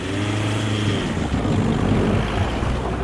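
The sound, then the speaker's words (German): Steady, loud roar of test cars driving on the snowy runway of a former airfield during tyre braking tests: continuous engine and tyre rumble with no clear pauses and no voices. “Draussen auf der verschneiten Startbahn vom ehemaligen Flugplatz Ulrichen sind mittlerweile die Bremstests voll am Laufen.”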